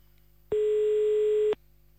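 A telephone ringback tone sounds while a call is placed during a French phone prank, a single steady, mid-pitched electronic tone lasting about a second between stretches of near silence.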